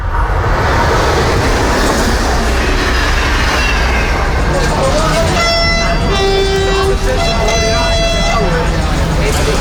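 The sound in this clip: Rail noise of a train bringing in an old royal carriage: a loud, steady rumbling roar, joined in the second half by high whistle-like toots, with voices underneath.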